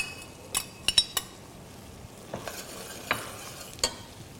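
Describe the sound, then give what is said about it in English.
Faint sizzling as andouille sausage grills and bacon is added, with several sharp utensil clinks and scrapes scattered over a low, steady frying hiss. “And right now I'm grilling the andouille sausage. So to bring this together, it's a matter of adding our bacon.”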